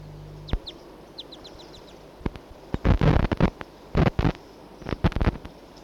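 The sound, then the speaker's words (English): Two wild birds call together, giving short high chirps followed by a run of loud, harsh, clucking bursts in uneven clusters over a low background rumble. “Two wild birds together.”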